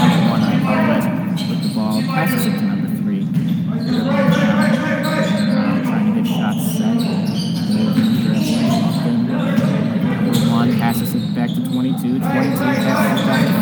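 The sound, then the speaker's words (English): Basketball dribbled during a game between the Cougars and the Lakers: many bounces on the court over a constant murmur of background noise that stays at one level throughout. “Dribbles up, tries to get a rebound shot, and he will not get it.”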